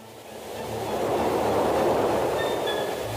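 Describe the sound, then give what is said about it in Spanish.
A train passes near a river where a family is fishing for trout, its broad rumbling roar swelling to a peak midway and then easing slightly, with faint high squealing tones near the end and no voices. “¡Viene el tren!”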